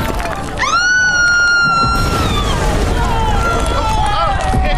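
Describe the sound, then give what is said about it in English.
A huge statue cracks and crashes down onto a house, a loud, sustained rumbling roar with a high screeching tone that rises sharply and then holds through the crash. “It's that ridiculous statue he had erected in his own image! It can't take the wind! It's cracking! That awful huge nose is breaking off! Everyone on the ground, look out!”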